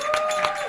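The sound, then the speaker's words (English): Metal bangles jingling on a wrist during clapping, a few quick claps with bright, sustained metallic ringing between them. “That is the sound of my bangles as I clap because it's exciting times.”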